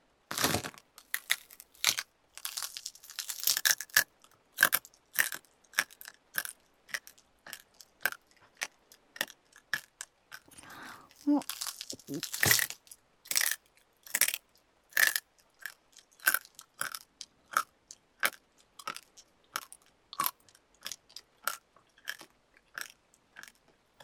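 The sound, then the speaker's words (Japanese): Chewing and eating: crisp, crunchy bites repeat many times in an irregular rhythm. Each bite is short and sharp with a wet, crackling edge. The bites are fairly faint and heard alone, with no talking. “全部きれいに食べてあげるね。”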